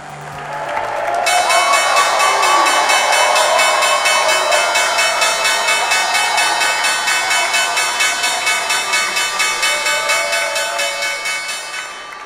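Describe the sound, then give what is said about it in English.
The New York Stock Exchange bell rings for about eleven seconds to mark a newly listed company's debut. It is a bright, rapidly pulsing metallic ring over a bed of crowd noise and applause. “That's the sound of the New York Stock Exchange bell marking the debut of a newly listed company.”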